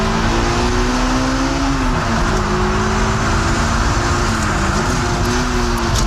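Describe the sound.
A car's engine drones loudly and steadily while it accelerates around a race track with its rear sliding; the engine note dips briefly a couple of times and then climbs back.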